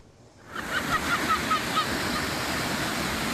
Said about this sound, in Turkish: Martılar tıpkı önceki yıllarda olduğu gibi akıntıya karşı yol almaya çalışan İnci Kefallerini avladı.